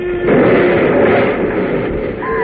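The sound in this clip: A model rocket crashes and explodes as a muffled, rumbling blast. The sudden heavy roar holds for a couple of seconds and slowly thins out, with no voices over it.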